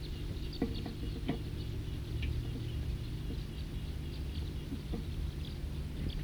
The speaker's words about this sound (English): recording that flock again. Or perhaps another flock.